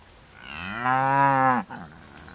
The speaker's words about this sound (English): So, as I said, I used to have limousine cows, and then I crossed them then with a Hereford.